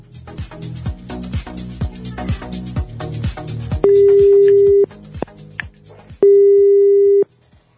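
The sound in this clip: Telephone ringback tone as a call is placed from a live radio studio: two long, steady, mid-pitched beeps, each about a second, sounding clearly after a stretch of rhythmic music.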